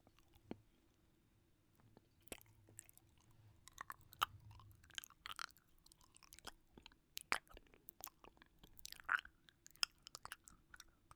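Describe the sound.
Honeycomb chewed for ASMR: many soft, sticky crunches and wet clicks in an irregular rhythm, quiet throughout over a faint low hum.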